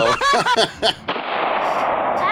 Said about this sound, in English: Yeah, he shot himself.